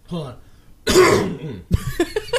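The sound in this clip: A man coughs hard to clear mucus from his throat, with a rough, throaty burst followed a moment later by a short, sharp cough. He is talking just before and after.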